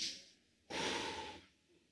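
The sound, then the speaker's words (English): A deep breath drawn in: one airy, hissing inhalation lasting under a second, faint and alone. “Can we all take a deep breath in?”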